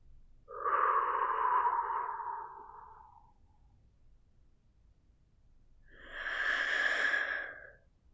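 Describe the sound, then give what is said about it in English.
Slow guided breathing: a long airy inhale, about three seconds of silence while the breath is held, then a long, soft, breathy exhale, with no talk. “In for 3 seconds, 2, 3, hold, and exhale slowly.”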